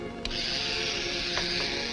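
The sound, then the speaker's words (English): An electric razor shaving: a steady, continuous buzzing drone with a bright, whirring edge, holding at an even level throughout, with a brief faint click near the start. “Diamond picks up an electric razor.”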